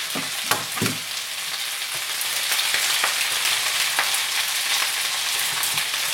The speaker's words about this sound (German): Ich mache jetzt noch das Ei mit dran. Wie gesagt, das mache ich mit Rührei.